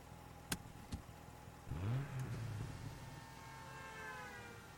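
A car being driven on the way to a cave: after two sharp clicks, the faint engine rises briefly in pitch, then settles into a low, steady hum.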